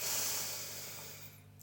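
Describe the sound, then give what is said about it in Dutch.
A slow breath drawn in during a breathing exercise, inhaling for a count of three. It is a soft, steady airy hiss that fades gradually over about a second and a half, with no talking. “En dan gaan we als laatste nog even weer met elkaar inademen, drie tellen in.”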